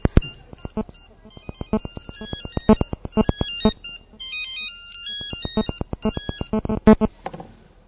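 A mobile phone ringtone plays a bright electronic melody of many quick, pulsing notes at varying pitches, loud and continuous for nearly eight seconds before fading out.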